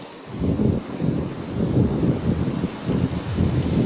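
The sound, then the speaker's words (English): Wind blows in a low, rough rumble with uneven gusty buffeting, moderately loud and continuous throughout. “That wind pick up to you?”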